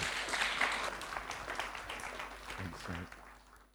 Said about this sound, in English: So I'd love you to give Chris a big hand as he comes to share with us just now.